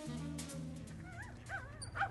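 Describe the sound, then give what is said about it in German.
Excited dog barking near dense, tall bushes, heard as a few high, wavering yips and whines in the second half, following a low steady hum. “Der Hund bellte erregt”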